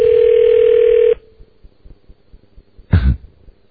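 An outgoing telephone call sounds its ringing tone: a steady, pure, loud tone lasts about a second and cuts off, followed by quiet low noise and a short burst of noise.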